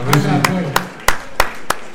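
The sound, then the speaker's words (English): Applause from an audience, heard as six slow, evenly spaced sharp claps, with a voice talking at the start. “A big round of applause for Rishan and Srihas.”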